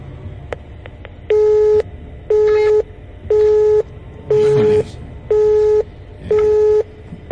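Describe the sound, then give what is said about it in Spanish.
Telephone busy tone after a call to a radio booth drops: six steady, evenly spaced beeps of the same pitch, a seventh just starting, preceded by a few faint clicks, with no talk. “bueno, se, se cortó la llamada, vamos a ver si ahorita la podemos recuperar.”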